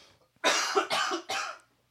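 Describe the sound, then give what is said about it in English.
Three harsh coughs from someone with coffee caught in the throat, each a loud, raspy burst in quick succession, alone and with no talk. “Coffee? I got it caught in my throat.”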